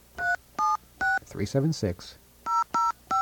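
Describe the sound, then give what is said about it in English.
Telephone keypad touch tones while dialing a number: three evenly spaced beeps, a short burst of voice, then three more beeps, each a clear steady tone. “Dial the right number,”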